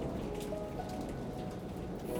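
Steady rain falling on a battlefield: a dense, unbroken hiss of drops at an even loudness throughout, with no voices.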